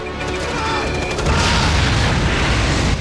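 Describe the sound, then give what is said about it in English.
A nuclear device blast tearing up a tunnel, heard as one loud, continuous roaring rumble with dense crackling noise that holds steady for about three seconds without separate hits. “It goes off. The blast shoots up the tunnel.”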